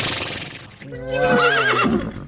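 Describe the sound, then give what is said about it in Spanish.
A horse whinnies in one long neigh with a quavering, wavering pitch. It rises out of a rough, noisy opening second and stays loud until near the end. “Ese sí está bien. Ese, el caballo.”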